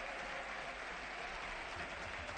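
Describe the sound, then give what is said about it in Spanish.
Steady, dense applause from a football stadium crowd at a Betis match that has just been suspended. It is a continuous, even roar of many hands clapping together, with no breaks or swells. “Es el aplauso ahora que escuchan y efectivamente el partido está suspendido.”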